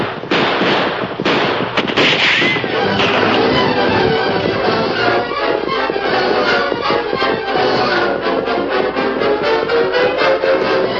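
Gunfire rings out in a radio drama shootout as mounted riders charge: loud, rapid, overlapping shots crackle almost without pause through the whole stretch, with no voices over them.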